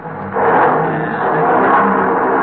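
An old car engine, paid off in 1939, revs up: a smooth, steady mechanical roar that swells quickly and holds at a sustained level.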